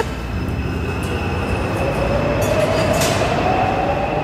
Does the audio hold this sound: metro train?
yes

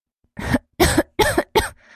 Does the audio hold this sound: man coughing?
yes

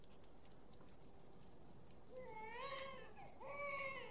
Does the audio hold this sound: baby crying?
yes

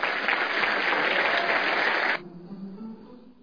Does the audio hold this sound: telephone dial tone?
no

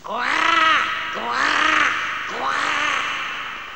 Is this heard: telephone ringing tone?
no

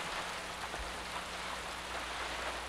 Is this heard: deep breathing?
no

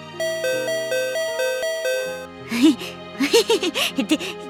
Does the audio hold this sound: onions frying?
no

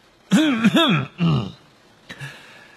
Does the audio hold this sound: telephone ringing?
no

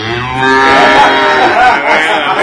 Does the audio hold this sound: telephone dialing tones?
no

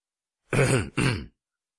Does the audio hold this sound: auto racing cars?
no

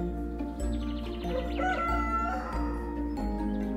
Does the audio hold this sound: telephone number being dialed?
no

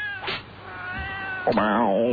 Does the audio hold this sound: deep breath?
no

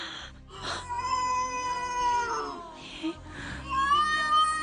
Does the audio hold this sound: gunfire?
no

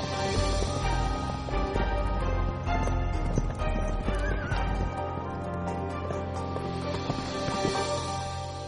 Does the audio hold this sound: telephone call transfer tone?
no

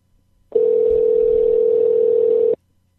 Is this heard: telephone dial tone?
yes

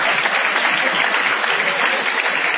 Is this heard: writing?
no

